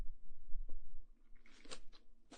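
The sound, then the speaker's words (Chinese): Quiet, irregular chewing of a pork belly rice dumpling, with soft wet mouth sounds and a few crunchier bites toward the end. “这个是五花肉粽，怎么样？好不好吃？好吃，嘿嘿，我就知道宝宝会喜欢的。再来一口啊！”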